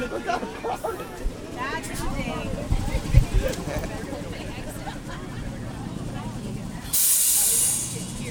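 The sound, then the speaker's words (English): St. Louis's Loop Trolley streetcar rolls along on its final day of scheduled service, a steady rail rumble and hum under the ride, then a loud burst of hissing air toward the end. “Here we go the last ride of the Loop Trolley.”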